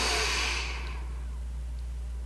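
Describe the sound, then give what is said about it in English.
A slow breath drawn in through the nose during a mindfulness exercise: a soft, airy rush that fades within about a second, over a steady low hum. “I'd like to invite you to begin breathing in through your nose. So let's take a slow breath in”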